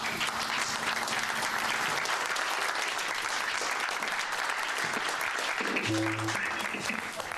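An audience applauds to welcome a band onto the stage, a dense, steady wash of clapping that holds at an even level for the whole stretch.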